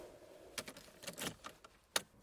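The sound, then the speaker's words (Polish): A lock that first would not open is worked with a small key, giving faint metallic clicks and light jingles. A few sharp ticks are spread through, with the crispest near the end. “Nie chce się otworzyć. Spróbujemy może kluczykiem.”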